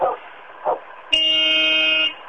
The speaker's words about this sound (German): Oh, und jetzt kommt die LKW-Hupe.